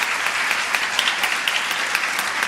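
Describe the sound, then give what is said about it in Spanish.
Applause from the audience at a doctoral ceremony as the rector embraces the new doctor, who returns to his seat. Many hands clap in a steady, moderate patter, with a few sharper single claps standing out. “El rector abraza al nuevo doctor. Van a regresar a sus asientos. El aplauso de todo el público asistente.”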